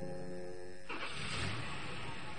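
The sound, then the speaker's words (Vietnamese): A car engine starting and driving off: a brief sustained tone gives way, about a second in, to a sudden broad engine roar that continues, with a low note rising as the car pulls away. “Ông lên xe, lái ra khỏi ngôi nhà số 4 của mình.”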